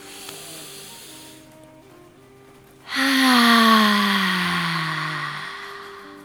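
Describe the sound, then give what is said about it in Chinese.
A deep breath out, drawn from the belly during a breathing exercise, carries a loud, breathy voiced hum. Its pitch slides slowly downward as it gradually fades, following a quieter stretch of breath noise. “深呼吸，吸到丹田，吐气的时候发出任何你想发出的声音，最后一次。”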